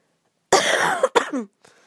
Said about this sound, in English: I took some cough medicine, which in fact has made me cough even more